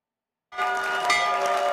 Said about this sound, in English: Trump rang the opening bell on Wall Street from the Oval Office alongside executives from the New York Stock Exchange and the Nasdaq